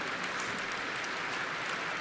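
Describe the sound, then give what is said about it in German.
Audience applause during a corporate address, a dense, steady wash of many hands clapping at an even level throughout, with no talk over it. “Ich danke Ihnen für den Applaus.”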